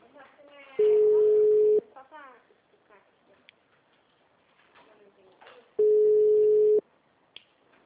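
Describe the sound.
A telephone rings before being answered, its ring tone sounding twice as a steady, mid-pitched electronic tone about one second long each time, with a few seconds of people talking between the two rings.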